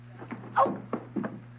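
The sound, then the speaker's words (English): A door being opened gives a few soft clunks and creaks, faint over a steady low hum. “Open that door. Okay, here goes.”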